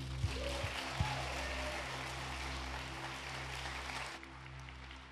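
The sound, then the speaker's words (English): A church audience applauds to welcome a pastor. The clapping is dense and sustained for about four seconds, then drops away, with a steady low tone running beneath it. “I want you guys to put your hands together and welcome with me Pastor Brian Laritz.”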